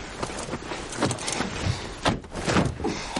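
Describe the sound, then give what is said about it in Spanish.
A car's rear door is opened beside a wooden house: a few soft clicks and thumps mixed with rustling movement, fairly quiet throughout. “Baja del vehículo. Abre la puerta trasera. La ayuda a bajar.”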